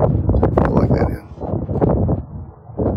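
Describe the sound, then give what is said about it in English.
Wind blows across the microphone outdoors in uneven gusts. Low, rough rumbling bursts rise and fall over a few seconds. “The wind's blowing.”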